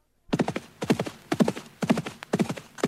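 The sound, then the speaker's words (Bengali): Hooves of a galloping horse carrying a rider toward a palace, clip-clopping in five quick, evenly spaced clusters of sharp beats, loud and alone with no voices. “তারপর রাজা একাই ঘোড়া ছুটিয়ে চললেন রাজপুরীর দিকে।”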